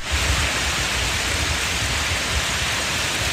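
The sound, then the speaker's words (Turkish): Heavy rain with hail pours down in a midday storm over flooded city streets in Edirne, making a loud, dense, unbroken hiss that stays steady throughout, with no voices. “Öğle saatlerinden itibaren yağmurla birlikte dolu yağdı.”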